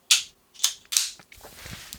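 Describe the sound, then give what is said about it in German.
A plastic battery cover is clipped onto a device with three sharp, bright plastic clicks in quick succession, followed by softer handling and rustling noise. “Und jetzt klippe ich das andersrum drauf.”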